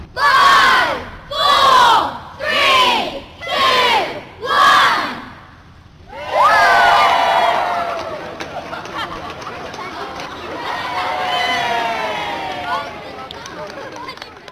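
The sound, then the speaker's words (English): A crowd shouts a countdown from five in unison: five loud, evenly spaced group shouts, then a sustained roar of cheering and chatter that slowly settles. “Then they do count down from five. There's sort of like a crowd of people.”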